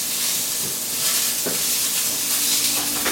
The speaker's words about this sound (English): you just slowly stir this around, and just slowly mix them around